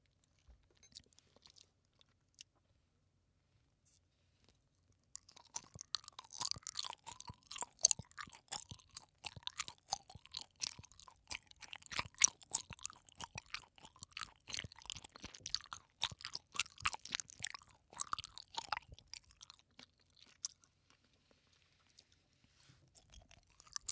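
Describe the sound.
Soft pineapple-flavored gummy candy being chewed: a long run of many moist, squishy bites with faint crunchy clicks, starting after a few seconds of near silence and continuing steadily, with no talking.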